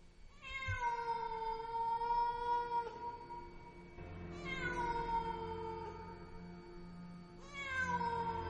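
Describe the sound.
A black cat meows in three long, drawn-out, wavering cries with bright harmonic tones, each fading slowly, alone without talk.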